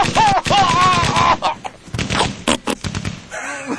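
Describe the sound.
Revolver gunshots from a Smith & Wesson, as a sound effect: a few sharp, loud bangs in quick succession amid other noise.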